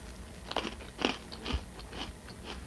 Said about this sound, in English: Since we won't decorate all of them, I'm going to take a tester bite and see.